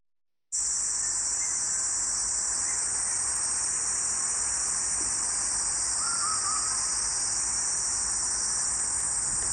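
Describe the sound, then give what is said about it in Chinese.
Call of the huigu cicada, a continuous high-pitched buzzing drone that starts abruptly after a brief silence and holds steady and unbroken to the end. “这是喙鸪的叫声。”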